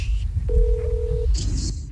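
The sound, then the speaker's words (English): A cell phone places a call, giving one steady mid-pitched ring tone that lasts under a second. A short higher-pitched electronic sound follows, all over a low background rumble. “Los teléfonos del estudio are not working, so I'm going to call the winner from my cell phone.”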